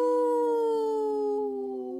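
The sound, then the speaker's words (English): A person howls in imitation of a wolf: one long, sustained, smooth tone that glides slightly downward in pitch and fades a little toward the end, with no talk. “Howl! Howl!”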